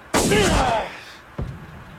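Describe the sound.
A bazooka fires with a loud, broad blast and a rushing, roaring tail lasting most of a second, then fading. A shorter, weaker thud follows about a second later.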